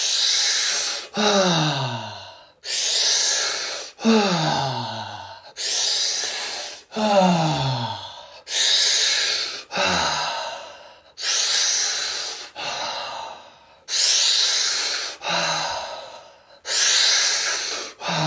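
Deep, rhythmic breathing during a guided breathwork exercise for sexual energy activation: many loud breath cycles repeat in a steady pattern. Each sharp, airy inhale is followed by a breathy exhale carrying a falling voiced tone, with no talking.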